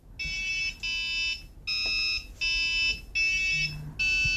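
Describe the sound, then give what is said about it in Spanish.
Bananas wired up as piano keys set off six sustained, buzzy electronic notes of varying pitch, each cut cleanly with short gaps between them. “Pues así suena, aquí está tocando cada plátano como si fuera una tecla de un piano.”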